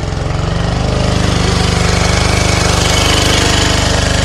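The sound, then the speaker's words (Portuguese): A generator running: loud, steady engine chugging with a fast regular pulse, continuous throughout with no letup. “Então já ligou o gerador? É. Vamos mais para aqui, que se faz? Já estou a ouvir. Tem ali o gerador a trabalhar, não é?”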